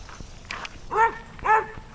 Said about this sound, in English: That's an alert bark. Okay, she's saying, hey, somebody's new.